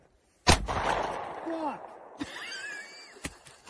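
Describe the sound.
Gunshots fired at a vehicle tire: a few sharp, loud bangs spaced irregularly apart, with short high squeaky tones between them.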